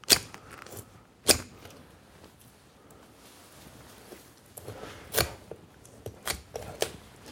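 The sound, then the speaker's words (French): Rib shears cut through ribs, giving a few sharp, crunching snips at irregular intervals. Quieter scraping and handling noises fill the gaps between the cuts. “avec le costotome, eh bien, couper les côtes.”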